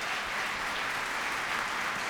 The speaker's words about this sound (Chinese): 让我们再次用掌声感谢两位队长给我们带来的精彩对决。